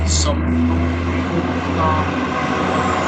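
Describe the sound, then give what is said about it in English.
A truck drives past on a busy road, making a steady, low engine rumble throughout with a short burst of hiss at the start. “I live on a busy road, and that was a truck going by.”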